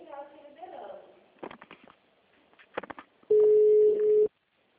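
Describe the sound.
A telephone line tone sounds while a call to a city hall switchboard is transferred. After people talk, a loud, steady single-pitch tone holds for about a second and then cuts off.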